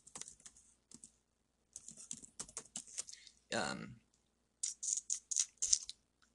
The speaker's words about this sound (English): Yeah, it'd help if I could type, huh?